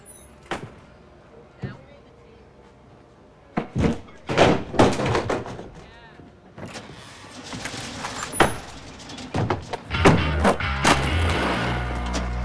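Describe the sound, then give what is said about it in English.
A skateboard is pushed down onto the ground, giving hard thunks and clatters. They come in a few sharp bursts amid other knocking movement noise. “He pushes the board to the ground.”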